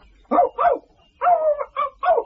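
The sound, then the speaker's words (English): Short, sharp yaps from a lively Yorkshire Terrier come in a quick run of several mid-pitched barks with brief gaps between them, with no voices alongside. “The dog was a Yorkshire Terrier with a slight lisp, but lively and full of beans.”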